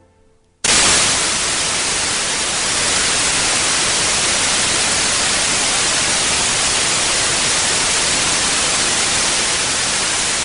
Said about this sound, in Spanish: Bueno, pues este es el ruido blanco, el sonido en blanco, el white noise.